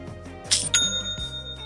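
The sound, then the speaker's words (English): Sale notification chime from an online store: two bright, metallic bell-like strikes in quick succession leaving a lingering high ring over a soft, low sustained background. “Aha, you know what that means. It's the sound of another sale on Shopify”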